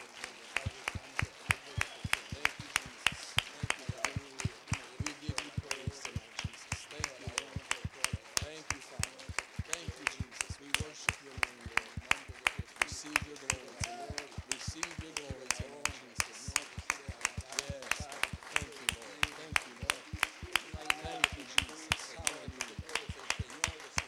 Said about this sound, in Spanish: Y podemos dar un aplauso a Dios de alabanza. Now let's give a better praise to the Lord.